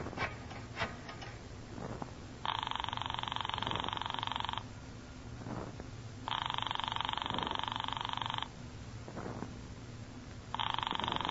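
A telephone rings upstairs, three long, buzzing ring bursts separated by pauses, the last one cut off, over a low background with a few faint knocks.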